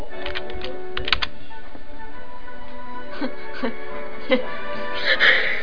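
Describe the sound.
Typing on a computer keyboard gives light, crisp clicks in short scattered bursts with pauses between them, over a steady background hum.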